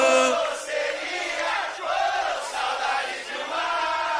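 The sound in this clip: A concert audience cheers and shouts. The massed voices come in loud, swelling bursts that rise and fall over a few seconds.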